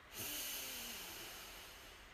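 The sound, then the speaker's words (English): A deep breath in and out during a guided calming breathing exercise, heard as one soft, airy rush of breath that starts suddenly and slowly fades, faint and alone. “Deep breath in and out. Deep breath in”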